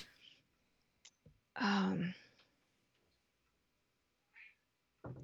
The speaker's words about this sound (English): You'll have to excuse my cat.